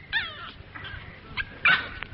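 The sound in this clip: A dog whimpers and yips in a few short, high, whining cries over a low background rumble, with the loudest cry near the end.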